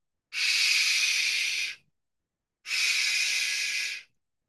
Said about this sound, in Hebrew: גם התנשמת התעוררה ואמרה,